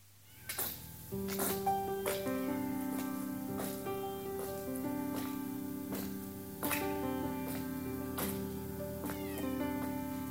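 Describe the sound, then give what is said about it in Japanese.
A cat meows inside a 1983 music recording mixed in 3D audio, with the cat placed behind the listener. The meows sit among sustained, quiet instrumental tones and soft percussive taps. “後ろから足音が、あとニャーとかいうのが後ろから来まして、 来ましたよ。 これ立体音響、 これが立体音響というやつですね。”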